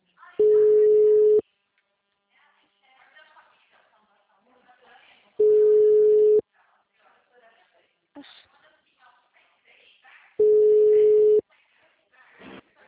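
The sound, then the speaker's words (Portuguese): An intercom call ringing produces three long, steady, loud tones, evenly spaced about five seconds apart, with faint voices and small noises in the pauses between rings. “Dá um interfone nele.”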